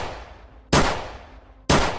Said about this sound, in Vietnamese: Vị linh mục giơ hai tay về phía trước, anh cầm chặt khẩu súng hơn, rồi một lần nữa bóp cò.